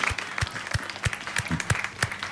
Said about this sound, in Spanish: un aplauso si lo merecen.